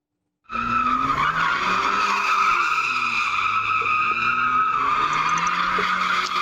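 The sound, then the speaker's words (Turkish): Tires squealing as cars drift on city streets: a loud, sustained screech that starts abruptly after a brief silence and runs for about six seconds, with a low, wavering engine tone beneath it. “Drift atan 4 sürücüye ceza yağdı. İlk görüntüler İstanbul Zeytinburnu ve Karabük'ten.”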